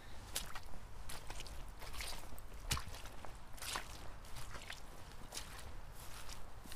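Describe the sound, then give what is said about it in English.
Footsteps on a boggy countryside path with treacherous slabs and steps: a faint, continuous run of many soft, irregular treads, each a brief scuffing crunch, with a low rumble underneath. “And immediately, it's boggy, and the slabs of the path and the steps are treacherous.”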